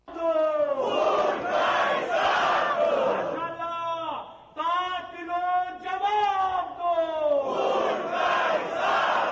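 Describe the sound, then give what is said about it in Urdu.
Protesters chant slogans in unison on Alamdar Road in Quetta, at a rally held during a black-day strike called by Shia religious groups. The loud, rhythmic group shouting drops briefly near the middle, then resumes at full strength. “Alamdar road پر ہونے والے ایک مظاہرے کے دوران شرکا نے یہ نعرے لگائے۔”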